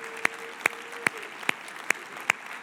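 A church audience applauds to welcome the other campuses joining the service. Six sharp, evenly spaced claps ring out over a steady bed of background noise.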